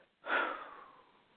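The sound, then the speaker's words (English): A slow exhale during a guided breathing exercise: one soft, breathy rush that swells quickly and then fades gradually over about a second, fairly quiet and without talk. “Let's breathe in. Breathing in love and Holy Spirit and peace and joy. Let's exhale.”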